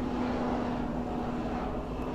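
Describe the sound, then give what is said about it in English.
Steady low drone of a helicopter flying overhead, an unbroken engine hum with a faint sustained tone running constant and even throughout, with no other sounds standing out. “Come on, helicopter, messing me up.”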